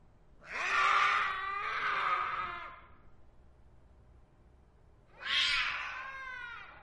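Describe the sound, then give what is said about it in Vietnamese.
A black cat snarling and yowling: two long, harsh, drawn-out cries separated by a quiet pause, the first wavering and briefly breaking midway, the second rising sharply before trailing off. “cái đầu đang được con mèo đen của ông Vương nhe nanh, cắn xé phần thịt ở cổ.”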